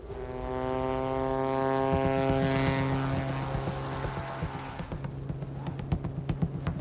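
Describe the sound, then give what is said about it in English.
A small propeller plane takes off from a glacier, its engine droning loud and steady with strong buzzing harmonic tones, then thinning after about five seconds into a rapid, rhythmic ticking rattle. “Taking off from a glacier takes all the skills of an experienced pilot.”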